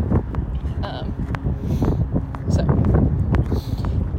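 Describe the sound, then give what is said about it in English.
Wind buffeting a microphone, a dense low rumbling roar that swells and gusts steadily, with a voice talking under it. “Sorry. Wind.”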